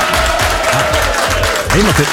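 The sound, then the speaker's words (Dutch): A small round of applause, light, scattered claps running beneath people talking. “We hebben met z'n allen een record gevestigd. Ja, toch een klein applaus.”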